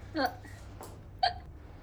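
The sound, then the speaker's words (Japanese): Hiccups, two small, brief catches about a second apart, faint over a steady low background hum. “今、しゃっくりした。 しゃっくりしたんじゃん。”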